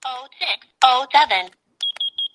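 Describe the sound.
Alarm beeping from a clock built into a walking cane. A person talks first, then a few short, high-pitched electronic beeps follow with no talk over them.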